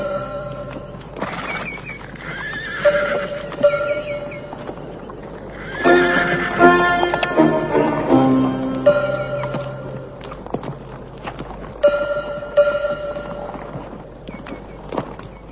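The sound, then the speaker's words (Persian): Horses neigh and their hooves clip-clop as a band of armed riders sets off on horseback. Shrill, shaking whinnies rise over a steady patter of hoofbeats throughout. “تفنگ به دست سوار بر اسب میرن”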